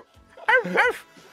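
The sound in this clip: Dog barking sound effect: two quick, high-pitched yapping barks in close succession, fairly loud and heard on their own.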